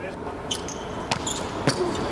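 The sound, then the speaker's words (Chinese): Volleyball serve in a Poland match: a few sharp ball strikes stand out over steady background noise and faint voices. “刚才得分的莱曼斯基发球，”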